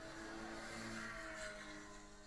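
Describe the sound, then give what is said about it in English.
A Cayman GT4 engine during a timed run at a motorsport event gives a faint, steady roaring drone that holds an even tone throughout, with no clear gear shifts. “So this was one of those Cayman GT4s.”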